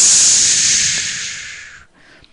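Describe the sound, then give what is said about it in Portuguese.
A voice imitates a whirlwind blowing with one long, breathy hiss that starts loud and slowly fades away, ending in near silence. “Veio outro redemoinho.”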